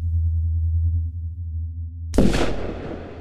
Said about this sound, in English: We got fired upon. A shot rang out. We head for cover. The shot came from across the canyon,